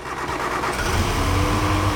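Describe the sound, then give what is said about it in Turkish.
A car engine running rough on only two cylinders, with the rear two, third and fourth, not firing; a loud, uneven mid-pitched engine note that is steady throughout. “motor işbirliği yapmıyor. İki silindirle çalışıyor.”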